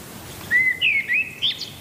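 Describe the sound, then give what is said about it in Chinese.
Birds singing in a forest before dawn: a few short, high whistled phrases with sliding notes, fairly faint and alone against quiet background hiss. “天还未亮，鸟儿们就开始鸣叫，顺序几乎是固定的。”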